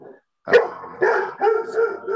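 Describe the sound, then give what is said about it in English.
Dog barking indoors: a few short, sharp, mid-pitched barks in quick succession, loud and uneven, with brief gaps between them and no talking. “Sorry, that's my dog barking.”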